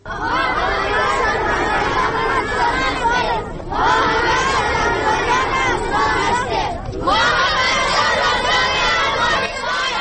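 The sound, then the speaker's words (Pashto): Dozens of children shout together at a protest outside Afghanistan's parliament, demanding a seat for Hindus and Sikhs. A loud, dense mass of raised voices comes in three long bursts separated by two brief lulls. “دا د هغو لسګونو تنو ماشومانو غږ دی چې د چهارشنبې په ورځ د افغانستان د ملي شورا مخې ته راټول شوي وو”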